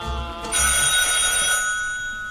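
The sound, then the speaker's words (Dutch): Telephone bell ringing in one sustained bright burst that starts loud after a short low rumble, then fades gradually toward the end. “Ondertussen telefoon voor Teunissen.”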